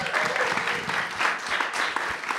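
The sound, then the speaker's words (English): Audience applause at a live panel of independent film producers: dense, steady clapping from many hands that fills the whole clip at an even level, with no pauses. “Round of applause one more time for our panel.”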